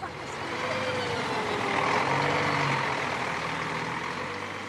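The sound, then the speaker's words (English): A bus driving on a trip near Westport. A steady, dense rumble of engine and road noise runs throughout at an even level. “But the bus doesn't head straight back to Westport.”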